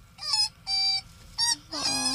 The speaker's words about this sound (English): That's a dog. Oh. You thought it was a koala, didn't you? I thought it was a bird, and I was like, oh. It's a dog.